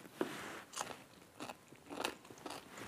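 Faint, crisp crunching bites and chewing as someone taste-tests a pickle made with dill and spicy chili pepper, a few separate crunches spaced across quiet gaps.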